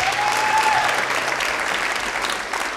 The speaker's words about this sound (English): Let's give it up for Lissy Taylor.